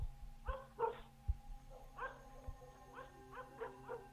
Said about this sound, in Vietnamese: Đâu đó có tiếng chó cắn ma nhấm nha nhấm nhặng vang lên